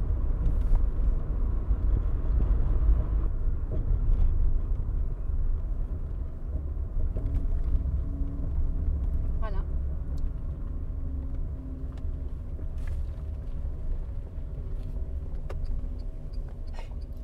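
A car driving slowly below 30 km/h while the occupants listen for a small noise. A steady low engine and road rumble runs throughout, with a few faint, brief ticks over it.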